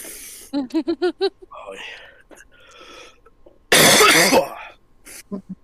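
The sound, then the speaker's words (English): Coughing and throat clearing from someone using a vape pen: a run of quick, voiced hacking pulses, scattered breathy rasps and throat noises, then a loud, harsh coughing fit, ending with a few short clearing sounds. “my lightsaber is making me cough too much, so I'm going to take a break.”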